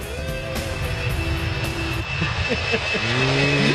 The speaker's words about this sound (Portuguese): tá passando mais uma vez o avião do Estádio 97.